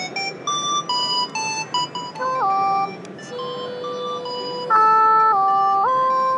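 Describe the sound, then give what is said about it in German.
Electronic beeping tones from a gamepad whose buttons trigger sounds: quick, stepped synthetic notes at first, then longer held tones that jump between pitches, with no talk. “Es ist ein Gamepad und wenn ich die Tasten drücke, dann kommt Sound raus.”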